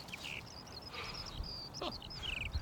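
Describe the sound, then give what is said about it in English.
A flock of ground-nesting birds calling as they take off and wheel over farm grassland: repeated thin, high squeaky cries over steady wind rumble. “They're all whirling around. Yes. So they flock together more at this time of the year. At this time of the year, and then they'll set up territories. I think we should learn a lesson. Another one just got up right beside us.”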